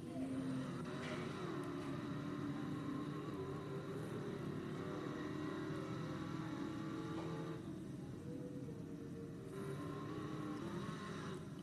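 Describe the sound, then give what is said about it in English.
A race car engine in a stock car racing video game on the Richmond short track, a continuous loud roar that holds steady with slight shifts in pitch and no voices. “This is some kind of short track car. Alright. Here we go, Richmond.”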